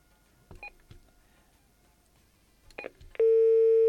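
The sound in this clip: Telephone line tone after a dropped call: a few brief tone bursts, then a loud, steady mid-pitched tone that sounds alone and holds to the end.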